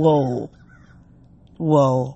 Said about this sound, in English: You hear the birds, you guys?